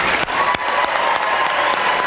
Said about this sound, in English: Join me in giving them another round of applause.